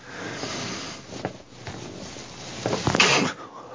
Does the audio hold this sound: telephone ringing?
no